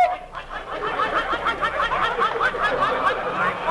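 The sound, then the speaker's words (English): A man's voice imitating a rooster during hog calling: a fast run of many repeated, chirpy, cackling calls at moderate loudness over a steady, rough background. “Got a rooster in there, too.”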